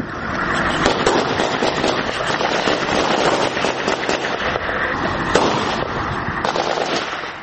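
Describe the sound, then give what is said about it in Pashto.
Dense, continuous crackle of gunfire at an Afghan forces post set in a civilian house, many sharp overlapping reports with a few louder cracks standing out, and no voices. “دلته هر څوک چې وغواړي ډزې کولای سي.”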